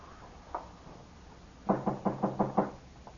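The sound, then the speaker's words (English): Knuckles rap on a door: one lone knock, a pause, then a quick run of six firm, evenly spaced knocks with a dull, hollow tone, followed by a last faint tap. “Couldn't figure who was knocking.”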